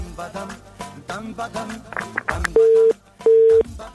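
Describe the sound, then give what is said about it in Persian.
A phone busy tone follows a cut-off call. A stretch of garbled line audio gives way to two loud, steady, even beeps with a short gap between them. “خب تماس بانو زینت وفا بود فکر میکنم قطع شد”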